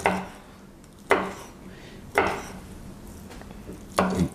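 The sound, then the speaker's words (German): Four sharp knife strikes chop food finely on a table while cooking dim sum, spaced unevenly and separated by quiet pauses. “die hacke ich, hack ich jetzt klein.”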